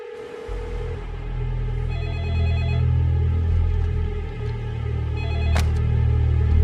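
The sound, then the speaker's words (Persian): A telephone rings with faint, repeated electronic trilling bursts over a loud, steady low rumble. “زود باش، جواب بده.”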